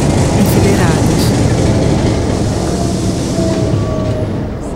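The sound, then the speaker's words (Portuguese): A train approaches people standing beside the track, making a loud, steady rumble with rattling clatter throughout that eases slightly near the end. “O trem se aproxima.”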